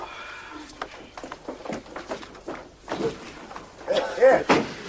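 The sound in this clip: A wardrobe door being handled: a run of sharp knocks and wooden clatters, fairly loud, that grows busier and heavier toward the end.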